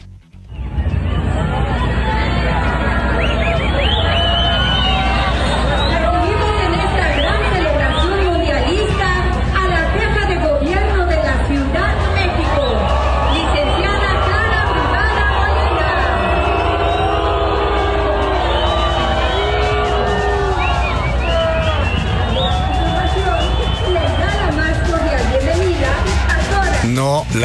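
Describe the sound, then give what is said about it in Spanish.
A crowd booing Clara Brugada during the World Cup parade on Paseo de la Reforma, a dense, continuous roar of many voices with scattered shouts, sustained at a steady level throughout. “Así abucharon a Clara Brugada durante el gran desfile mundialista en Paseo de la Reforma, que quedó bonito, pero a Clara Brugada no la quieren. Escuchen.”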